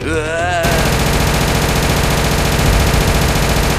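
A Gatling machine gun with a rotating titanium barrel cluster fires at about 2000 rounds a minute in a video game. It is a loud, unbroken, rapid roar of shots that keeps going without pause.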